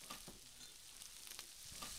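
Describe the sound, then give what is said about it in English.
Pork sizzles in a frying pan as it cooks until golden, giving a faint, steady crackle with scattered small pops throughout. “And what we're going to do is fry the pork up until it's a little bit goldenish.”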